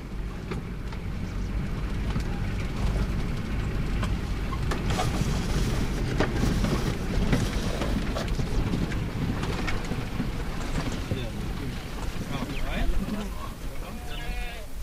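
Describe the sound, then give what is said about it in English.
A car engine rumbles steadily as the car drives back to a well, a continuous low, even drone with people talking over it. “Duty done, we drive back to the well.”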